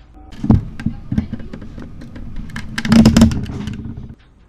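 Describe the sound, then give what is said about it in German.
Below deck in the passageway, a sailing ship's mainmast creaks and groans in heavy seas: irregular wooden squeaks and knocks, with a louder cluster of strained creaking toward the end before it cuts off. “Ich meine, es war das Mastknarzen vom Großmast unten im Gang und das haben wir immer bei viel Seegang”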